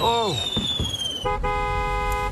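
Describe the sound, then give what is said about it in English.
Stored fireworks, set off together by a stray spark under canvas, whistle loudly with falling pitch and a few sharp pops. A sustained, horn-like tooting tone follows. “A stray spark just got under the canvas where the fireworks are stored, and they're all flowing at once.”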